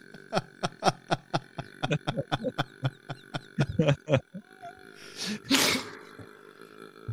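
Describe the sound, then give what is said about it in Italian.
A woman lets out a long, croaking burp that breaks into a rapid chain of rough pulses for about four seconds. A short breathy burst follows. “Un rutto irreale. Sembra irreale.”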